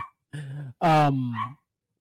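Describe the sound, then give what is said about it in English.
A dog vocalises: a short, low, whining note, then a louder, longer bark-like howl with a rough, voiced tone, followed by quiet. “Yeah, it's my dog, and she's on one tip today.”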